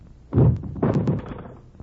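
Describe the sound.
A woman faints and falls, making dull, low thuds. Two soft, heavy thumps come in quick succession, the second longer and more spread out, with no talk over them.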